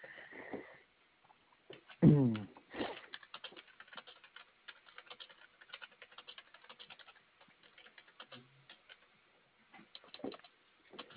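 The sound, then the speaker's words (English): Typing on a computer keyboard: quick, irregular clicks of keystrokes in a fairly faint, continuous run, with brief gaps between bursts. “It sounds like you can type fast. Not that fast, as much as I would love to. Sounds like you're typing faster than I can.”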